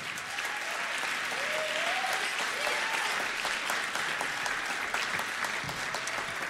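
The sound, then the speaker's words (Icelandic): An audience applauds with steady, dense clapping that holds at an even level throughout, with a faint voice briefly audible underneath. “Gefum þeim gott klapp.”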